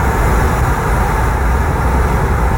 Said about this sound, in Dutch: Dit is het geluid van het raam dat een klein stukje open staat... en we rijden hier in Frankrijk over de snelweg.